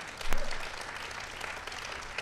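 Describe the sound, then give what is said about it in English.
Audience applause at a WNBA Seattle Storm celebration, quiet, steady clapping with a brief louder burst near the start. “That's worth applauding.”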